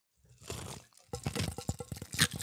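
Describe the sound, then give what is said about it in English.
Pebble ice crunches and rattles in large XL fountain Diet Coke cups from Chick-fil-A. A soft rustle gives way to a dense run of many crisp crunches and clicks that stays fairly quiet throughout. “The Pebble Ice. Listen for the ASMR.”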